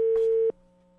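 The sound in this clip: A telephone gives a steady, pure tone while a call is being placed. It holds for about half a second, then cuts off sharply and leaves a faint, lower hum.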